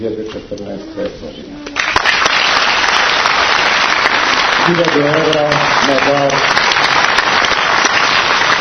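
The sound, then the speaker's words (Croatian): Loud, steady applause from an audience greeting a musical and stage spectacle at a Saint Sava academy. It starts after a brief voice and holds a dense, even roar to the end. “Publika je na Svetosavskoj akademiji burnim aplauzom pozdravila muzičko-scenski spektakl Njegoš Nebomosijan i rediteljke Ivane Žigon.”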